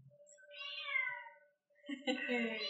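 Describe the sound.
A cat meows twice, each call drawn out and tonal, with a short pause between the two. The meows are fairly faint.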